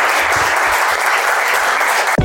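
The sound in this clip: An audience at a live business Q&A event claps to welcome a guest: loud, dense, steady applause that carries on evenly, then cuts off abruptly near the end.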